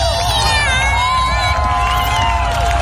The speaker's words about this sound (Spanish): Un momento celebrado por el público.